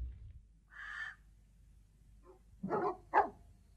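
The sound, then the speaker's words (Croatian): Dogs bark at an estate, fairly faint: a higher yelp followed after a pause by a couple of short, rough barks. “Smirite pse i otvorite vrata.”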